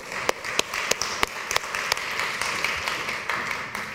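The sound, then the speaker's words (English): Audience applause during a church sermon: several sharp, distinct claps at first, then a steady patter of clapping from the group. “Let's just clap for Alejandro.”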